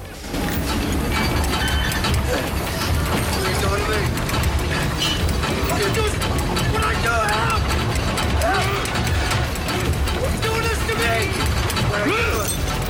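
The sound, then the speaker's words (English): A winch winds a chain around a metal shaft with continuous loud mechanical grinding, ratcheting and clanking that runs without pause from start to finish. “Both men pull against the chain as the winch winds it around a metal shaft, pulling them towards it.”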